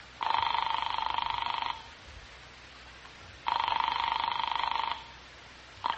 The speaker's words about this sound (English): Back in the Randolph house, I found a telephone with no one around. I dialed Cal Hendricks' number in New York.